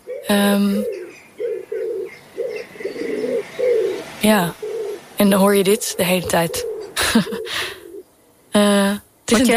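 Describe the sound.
Pigeons cooing in repeated soft, low, throaty coos with short gaps between them, while a person speaks over parts of the sound.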